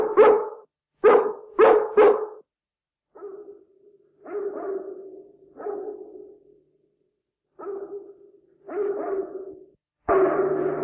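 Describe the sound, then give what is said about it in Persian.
A big Great Dane barking: a quick opening run of sharp barks, then sparser, softer, drawn-out woofs separated by silences, and a louder bark at the end. “صدای اون دانمارکی گنده هست. پانگو ساکت پسر، میخوای تمام در همسایه ها رو بیدار کنی؟”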